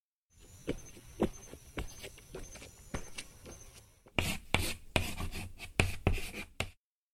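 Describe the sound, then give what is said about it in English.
A word being written on a board: many short, scratchy strokes in an uneven rhythm. They are faint at first and grow louder and busier in the second half before stopping. “Now let's do some writing. Here, go to the board and write the word honey, please.”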